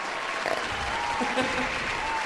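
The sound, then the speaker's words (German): Studio applause as everyone claps together for a joke-teller at a radio studio, a dense, steady patter of hands holding an even level for the whole stretch. “Kommt mal alle zusammen klatschen.”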